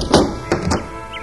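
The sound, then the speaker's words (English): A door being opened, heard as a few dull thuds and knocks in quick succession within the first second, followed by quiet. “I'll get the door.”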